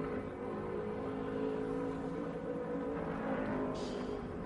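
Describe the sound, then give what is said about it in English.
An IMSA race car pushing through Sector 1 on a pole-position qualifying lap, its engine a sustained, steady tonal drone with layered harmonic whine, loud and unbroken with no voices. “Hawksworth trying to add to that with another pole run here, and he's got a pretty good lap going through Sector 1.”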